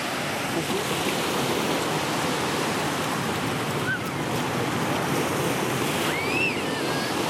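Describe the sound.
Sea waves break on the shore near shipyards in a loud, continuous rushing roar with wind noise mixed in and no clear break.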